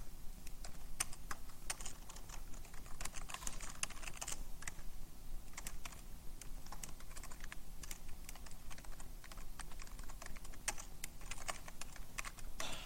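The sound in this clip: Someone types Java-like pseudocode on a computer keyboard. The keystrokes are quick, soft and irregular and continue without a break the whole way through.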